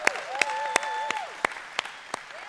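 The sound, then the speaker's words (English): A church audience claps to welcome online members, with sharp claps landing in a steady, even rhythm over held musical tones that waver gently in pitch. “Put your hands together, welcome them, let them know.”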